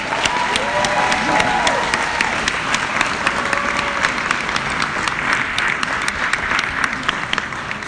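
An audience welcomes a congressman after his introduction with sustained, dense clapping at an even loudness throughout, and crowd noise underneath.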